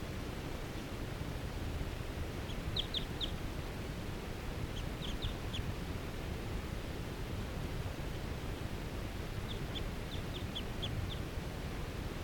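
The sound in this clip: A bird in a fir tree gives faint, high-pitched calls in three quick clusters of rapid chips, separated by quiet gaps and nearly buried under a loud, steady hiss.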